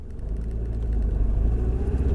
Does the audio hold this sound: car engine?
yes